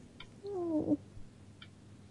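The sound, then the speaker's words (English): A house cat gives a single short, mid-pitched meow, fairly quiet, with near silence before and after it. “Cat. We got a cat in the house.”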